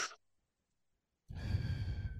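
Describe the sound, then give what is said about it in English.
A person demonstrating a labor breathing technique: a brief breath, then a pause of silence, then a longer, breathy exhale with a faint voiced tone, close and alone with no speech. “it was, if I remember, like just short little breaths, like”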